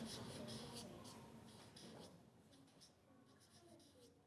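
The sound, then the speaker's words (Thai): Faint, continuous scratching of pencils on paper as schoolchildren write a letter in a Thai classroom, with soft voices underneath. “อ้าวเขียนได้เลยลูกอาจจะขึ้นต้นด้วยคำว่าสวัสดีก็ได้อ่ะลองดูนะ”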